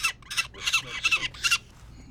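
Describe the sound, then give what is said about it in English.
Peregrine falcon chicks cry harshly while being handled and banded, a rapid series of loud, high, rasping squawks in uneven bursts that trail off near the end. “The chicks put up a fight too as they cry, bite Zabrowski, and try to kick their way out of his hands.”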